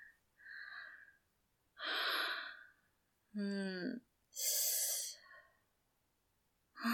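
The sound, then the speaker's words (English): Deep, slow breathing close against someone's neck in an intimate moment: a few airy inhalations and exhalations separated by short silences, one briefly voiced with a soft moaning tone. “And I lean in. And I breathe deeply on your neck.”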